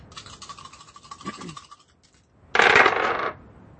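Dice rolled during a tabletop role-playing game, heard as a light scattered clatter followed by a short, louder rattling burst, with no talk over it.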